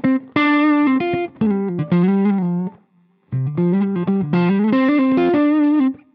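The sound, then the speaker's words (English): Electric guitar through an amp with an overdrive pedal and a dark delay plays distorted, harmonically rich melodic phrases. Notes sustain and repeat, and a brief pause falls midway before the playing resumes. “And it's got a bit of a delay on it, as you can hear. Quite a dark delay”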